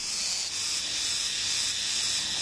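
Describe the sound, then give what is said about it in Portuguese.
An insect rubbing its hind legs together makes a steady, high-pitched hissing buzz that stays loud and unbroken, with no other sounds. “Esse inseto está fazendo barulho com as patinhas de trás. Ele se mexe e faz um barulho alto.”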